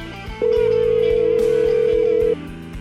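A telephone tone as a call is dialed, one steady mid-pitched beep lasting about two seconds over quiet background music.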